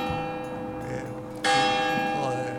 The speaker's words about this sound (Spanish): Tenemos unas campanas.